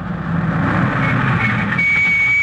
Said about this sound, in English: Hey, look out! The cargo truck!